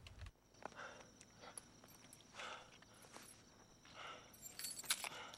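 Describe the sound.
Car keys tossed and jangling near a vehicle: faint metallic jingles in a few scattered bursts over a low background hiss, growing brighter toward the end.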